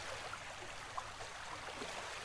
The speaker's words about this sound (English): It's a stream right there in the middle of the wasteland, right before your eyes.